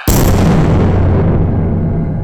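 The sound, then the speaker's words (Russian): Powerful firecrackers exploding on both sides of a cinema hall: one sudden loud blast at the very start, then a dense, booming roar that slowly fades over the next two seconds. “Петарды взорвались по обеим сторонам кинозала. При этом оказались настолько мощными, что легко перекрыли шум урагана.”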